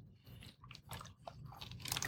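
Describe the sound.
Food being crunched and chewed to clear the palate: quiet, irregular crisp crunches and chewing noises that grow slightly louder toward the end, with no talking.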